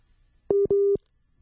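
A telephone busy signal after a call drops: two steady, mid-pitched tone bursts in close succession, the second longer than the first, with no voices.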